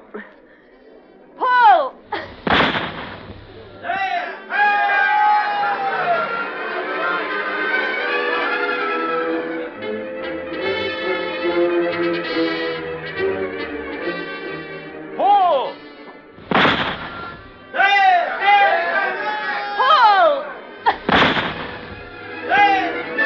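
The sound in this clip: Gunshots at a trap shooting match, with birds released at the end of the field: three sharp, loud blasts spaced well apart, and people talking between them.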